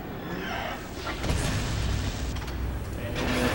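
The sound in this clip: Explosive booms and mechanical blasts as the radar is destroyed in the video game Metal Gear Solid, forming a dense, continuous rumble with a few heavier bursts rising out of it.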